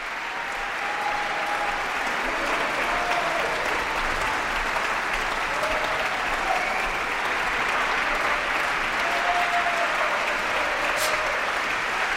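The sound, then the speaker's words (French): Dense, sustained applause from a concert audience at the Verbier Festival, cheering a violinist returning to the stage for an encore after the Brahms violin concerto with a chamber orchestra; the clapping stays loud and steady throughout, with no voices. “Marc Bouchkoff qui revient sur la scène, saluer encore une fois le public, public comme vous pouvez l'entendre, en délire.”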